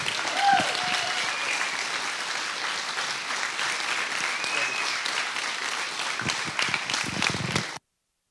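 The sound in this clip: An audience applauds steadily to welcome a pastor coming up to preach at a Father's Day church service. The dense clapping holds at an even level for about eight seconds, then cuts off abruptly.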